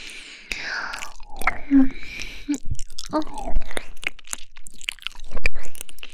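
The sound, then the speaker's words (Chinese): Wet ear-licking and mouth sounds in an intimate ear-licking role-play: many soft smacks, clicks and slurps with breathy, whispery exhalations between them. “哦，人家这样舔你的耳朵，你就这么敏感吗？”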